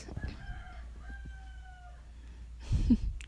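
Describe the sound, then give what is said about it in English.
A rooster crowing: one long, drawn-out cock-a-doodle-doo with clear tonal harmonics, followed by a louder, low, rough burst of sound near the end. “now you know that the rooster is awake.”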